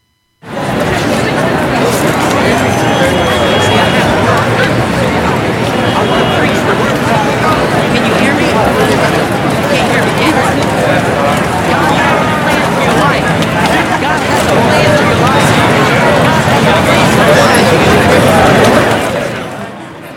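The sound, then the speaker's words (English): Crowd noise plays: the dense chatter of many overlapping voices, loud and unbroken for nearly twenty seconds, then cuts off abruptly at the end. “We've selected just a brief segment of crowd noise, and I'm going to get them to play it in just a second.”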